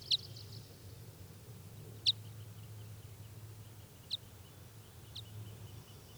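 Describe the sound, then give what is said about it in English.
A bird gives four brief, sharp, high-pitched flight calls, unevenly spaced one to two seconds apart. They are faint and stand alone over a low, steady background hum. “But no sign of any wild birds, and that's 395 giving flight calls.”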